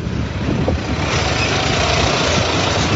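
Truck engine rumbling as it passes through a narrow gorge, a steady, loud, low drone that holds even throughout, with no talk over it.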